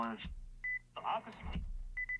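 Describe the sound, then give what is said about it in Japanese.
A radio tuner beeps to mark the end of its tuning range: short, steady, high-pitched electronic pulses in two brief bursts, with a voice talking around and between them. “ピピッという音がしましたね。これで、終点が分かるようになっております。”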